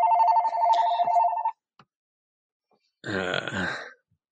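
A telephone rings in a steady electronic tone for about a second and a half. After a pause, a shorter, rougher burst of sound follows.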